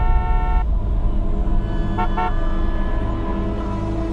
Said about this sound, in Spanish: Despertó minutos después, cuando la bocina del auto del taxista reclamaba su presencia.